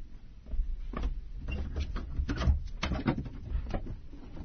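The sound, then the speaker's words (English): An old trunk being opened, heard as a stretch of irregular creaks, squeaks, scrapes and soft knocks that jostle against each other without a steady rhythm. “Open up that trunk,”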